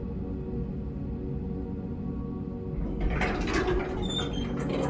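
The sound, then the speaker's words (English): Elevator doors sliding open: a low, steady hum gives way midway to a brief mechanical rush with thin, high tones. “The elevator opens.”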